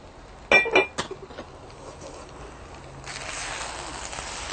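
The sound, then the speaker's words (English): Dishes and cutlery clink as food is dished out in a garden: a brief cluster of sharp clinks early on, then a few quieter knocks over a steady low background. “We can now, the food is ready, so we can dish it out now. And you'll have a view of what it actually looks like. Can you pass me the dish?”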